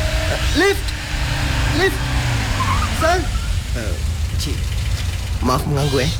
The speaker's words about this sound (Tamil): அங்க பாருங்க ஒரு கார் வருது.